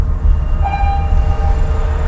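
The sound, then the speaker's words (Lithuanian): A freight train rumbles past on a railway beside a large cargo terminal at the port of Klaipėda, a steady loud low roar with a thin, faint horn-like tone held through the middle. “Maždaug kelios dešimtys metrų skiria Domarkų namus nuo krovininio geležinkelio, už kurio iškart dirba viena didžiausių Klaipėdos uosto krovinių kompanijų. Girdis tikrai iš tikrųjų”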